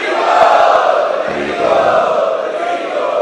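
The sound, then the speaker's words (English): A crowd loudly chanting in unison to welcome guests at an evening devotional festival, a dense, sustained wash of many voices lasting about three seconds. “Let us welcome them by loudly chanting.”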